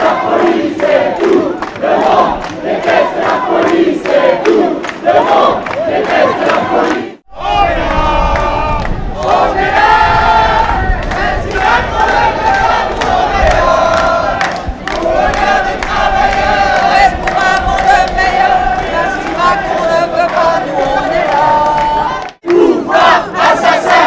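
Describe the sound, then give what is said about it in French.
A protest march crowd sings and chants loudly as it moves through central Lille in the evening. Many voices join in sustained unison with some cheering, broken by two brief pauses partway through. “Aux alentours de 20h, le cortège quitte la place de la République et marche vers le centre de Lille, en chantant.”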